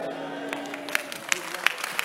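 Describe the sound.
Scattered audience clapping, a few sharp hand claps at a loose, steady pace, with a voice talking at the start.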